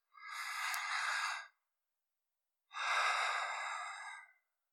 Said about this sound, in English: As I hear my breath